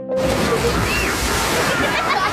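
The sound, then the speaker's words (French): Splashing water from water park games, a loud, continuous sloshing and churning that fills the whole stretch without a break. “Mais si on enlève les splouches de nos nouveaux jeux aquatiques, les splashes, puis les rires,”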